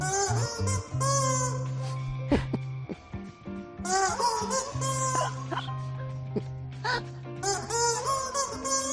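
A rubber chicken is squeaked to play a slow song melody as a series of honking, squawking notes that change pitch. Steady low tones hold underneath, with short pauses between phrases.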